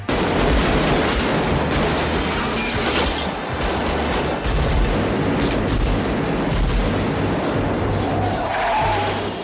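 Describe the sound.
Gunfire in a film trailer, dense loud bursts mixed with shattering, roaring car engines and skidding, a continuous barrage of action sound throughout.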